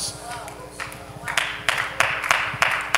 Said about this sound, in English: Oh, if you're going to clap, do it well. That was, come on, that was like 50%.